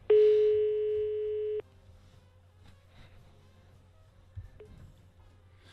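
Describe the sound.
A telephone ringback tone of an unanswered call sounds as one steady, mid-pitched beep lasting about one and a half seconds, then gives way to a low hum with a few faint clicks.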